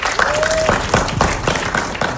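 An audience applauds a band arriving on the new-music stage at a cultural centre in Limoges. The clapping is a steady, dense patter of many hands, moderately loud, with a brief whistle-like tone near the start.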